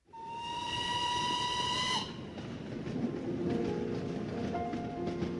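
A loud, steady steam whistle sounds for about two seconds from a train bound for Yan'an, then cuts off. A continuous rumbling train noise with faint rhythmic clatter carries on alone.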